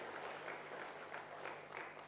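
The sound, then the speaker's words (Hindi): Applause from an assembly honouring a revered elder sister, called didi ji. The clapping is faint and steady, forming a continuous wash with slight swells. “एक बार जोरदार तालियां हमारी आदरणीय दीदी जी को।”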